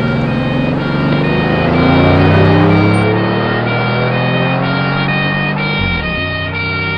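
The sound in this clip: A fleeing getaway car's engine revs hard as it accelerates, loud and continuous. Its pitch climbs over the first couple of seconds, then eases and drops sharply near the end.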